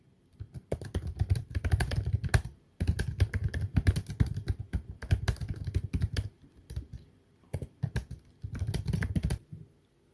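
Typing on a computer keyboard: rapid, irregular clicking keystrokes in several bursts separated by short pauses. The clatter is steady and moderately loud, with no talking.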